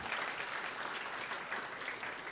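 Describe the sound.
Applause from a church audience during a Sunday service, a steady, even round of clapping that continues throughout without voices.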